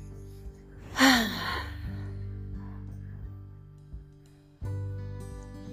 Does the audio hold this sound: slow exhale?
yes

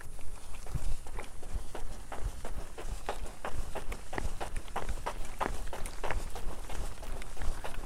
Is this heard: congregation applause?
no

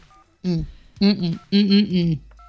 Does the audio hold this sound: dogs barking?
no

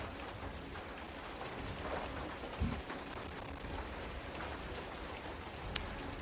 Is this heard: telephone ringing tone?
no

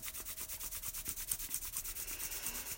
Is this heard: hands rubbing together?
yes

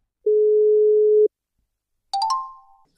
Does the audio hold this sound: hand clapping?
no

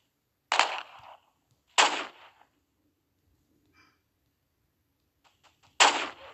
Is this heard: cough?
no

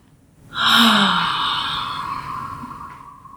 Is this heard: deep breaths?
yes

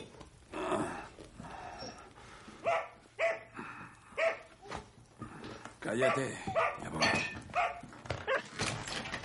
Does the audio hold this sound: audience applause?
no

